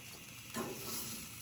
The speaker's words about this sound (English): Pay attention to your buns. Make sure you flip them. You rotate them. You don't want to burn them.